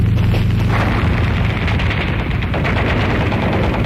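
Continuous heavy explosions and gunfire as helicopters fire from the air on mercenaries. The dense, rumbling barrage stays loud throughout, with no clear pauses between blasts.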